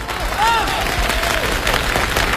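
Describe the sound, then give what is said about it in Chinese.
Applause from an audience at the 1993 Spring Festival Gala, greeting the opening of an on-stage auction. The clapping is dense and steady and fills the whole moment without a break. “朋友们，1993年春节联欢晚会现场拍卖开始， 让我们以热烈的掌声表示祝贺。”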